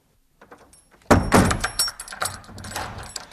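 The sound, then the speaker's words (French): A villa door is shut and locked with a key: a loud thunk as the door closes, followed by several lighter clicks and rattles. “Fifi ferma à double tour la porte de la villa Drôle de Repos.”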